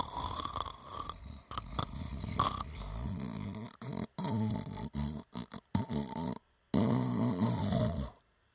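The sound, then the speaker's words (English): A voice imitates heavy snoring: a long run of rough, rumbling snorts and purring rasps in uneven bursts with short breaks between them, fairly loud throughout. “Went on for ages about snoring. The minute after he goes, all right, so no snoring. Next minute you hear,”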